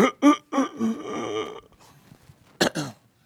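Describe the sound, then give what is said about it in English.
A voice imitates gasping for breath with several short, raspy, strained bursts, then goes quiet before one last breathy burst. “talk about short of breath.”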